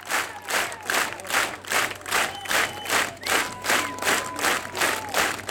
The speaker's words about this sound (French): Le public du festival de Château-Vallon en redemande, comme vous pouvez l'entendre.